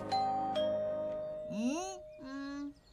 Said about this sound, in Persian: شاید صدای زنگو نشنیده.